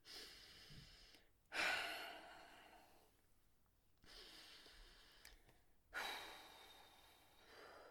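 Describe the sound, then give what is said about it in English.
Four slow, deep breaths, each a long airy rush of air with quiet gaps between, soft and steady, heard on their own without talk. “Okay, deep breaths.”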